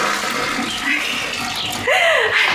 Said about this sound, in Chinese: 俺咋没听见水响嘞？哎呀，忘了忘了，呀，忘冲水嘞。